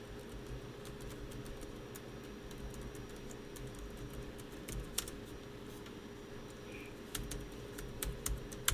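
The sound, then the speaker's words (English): Faint typing on a computer keyboard, with many scattered, irregular keystroke clicks over the steady whirring hum of an air purifier. “Are you listening to me type?”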